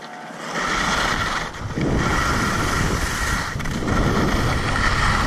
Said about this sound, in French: Ambiance ski sur une piste rouge à Combloux en mars 2022, la Jorasse à 1757 mètres.